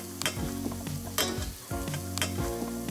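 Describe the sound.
Butter sizzles in a pan with garlic, mushrooms and rosemary, a steady crackling fry broken by a few scraping stirs, with no talking.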